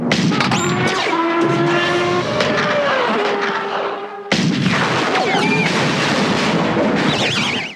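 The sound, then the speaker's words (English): A futuristic pod racer crashing: a loud, continuous roar of racing engines with whining pitched tones that slide up and down, a sudden break midway, then more dense roaring noise until the end. “So so next we have one of the crashes, the death of Team Toe.”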